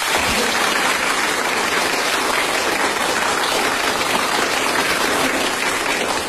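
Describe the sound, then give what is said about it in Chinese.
Crowd applause given on cue during a recording session: a dense, steady wash of many hands clapping at even loudness from start to finish, with no talk over it. “准备又乐又鼓掌。 好， 开始啊。 没问题， 准备录音。 哎， 预备，鼓掌。”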